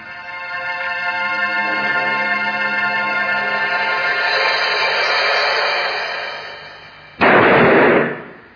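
A shot from an 1842 pistol bursts out as one loud, broad blast with a short noisy tail, coming after a long sustained tonal drone that slowly fades.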